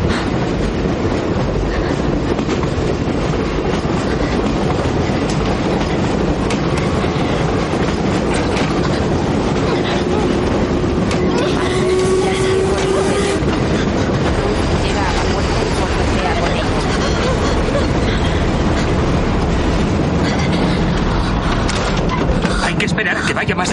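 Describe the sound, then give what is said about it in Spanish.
A wartime train moving fast on rails, a loud, unbroken rumble with a clickety-clack rhythm throughout and a brief high whine partway through. “El tren va demasiado rápido para los demás.”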